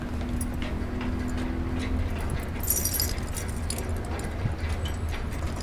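Keys jangle while someone tries a key in a stuck lock: light metallic jingling with a brighter burst of clinks partway through, over a steady low background.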